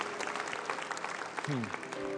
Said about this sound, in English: Let's give God a hand clap today.